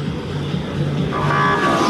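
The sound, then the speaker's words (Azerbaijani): Race car engines at a Grand Prix blend with the honking of cars stuck in traffic on intersecting streets: a loud, steady engine drone, joined past midway by a sustained horn tone. “Yarış maşınlarının səsinə bir də kəsişən küçələrdəki tıxaclarda qalan maşınların siqnal səsləri qarışır.”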